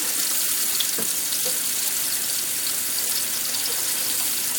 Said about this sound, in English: I'm just going to wash the plate off so that I can then use it to gauge the second to dry it out.